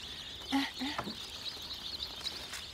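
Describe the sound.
Young chicks peep in the sunshine, producing a faint, steady high-pitched chorus of overlapping chirps. A few short, lower sounds break in near the start.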